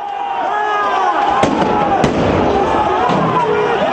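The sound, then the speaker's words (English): Stun grenades explode amid a street protest, with sharp, loud bangs cutting through continuous crowd noise and shouting. “Anti-government protesters tried to chase police officers who responded with stun grenades and tear gas.”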